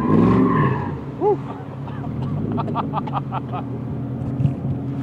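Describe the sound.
Stunt car driving during a stunt-driving lesson, with tyres skidding: engine roar and rough, continuous tyre scrub throughout, with brief squeals and some voices mixed in.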